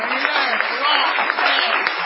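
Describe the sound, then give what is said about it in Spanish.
A small audience at an evening stage show applauds enthusiastically, steady dense clapping that runs through the whole clip with a thin, band-limited tone. “Gracias, gracias, porque aplauden con mucho entusiasmo, sí, porque tienen conciencia de su escasez.”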